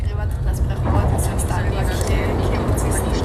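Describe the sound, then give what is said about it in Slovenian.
Car engine accelerating on a winding road toward a hillside village, a steady low rumble that holds evenly throughout. “Znova pritisneš na plin.”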